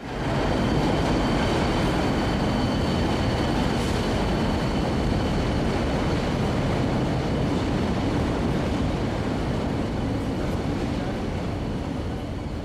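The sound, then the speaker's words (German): Steady, loud rumble of trains in an old, large, dark railway station in Ireland, a dense continuous wash of rolling noise that holds evenly from start to finish with no clear breaks. “Wir stehen jetzt in diesem alten, großen, dunklen Bahnhof Westland Row”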